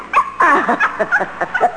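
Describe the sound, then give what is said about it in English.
A small dog yips and whimpers in a run of short, high, whiny barks with uneven rhythm, heard alone without talk. “I left my little dog downstairs. I told him, stay. But he never listens.”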